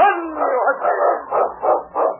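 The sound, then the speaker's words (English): A sled dog used as a lead dog gives a loud, drawn-out howling bark, then a few shorter, rhythmic barks that pulse in quick succession. “It's King, swiftest and strongest lead dog of the North Country, blazing the trail for Sergeant Preston of the Northwest Mounted Police”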